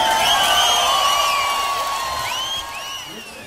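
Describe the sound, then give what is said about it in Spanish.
A crowd cheers with loud whoops and whistles that sweep up and down over a dense wash of voices, holding strong before gradually fading toward the end. “Muchas gracias, un aplauso por favor.”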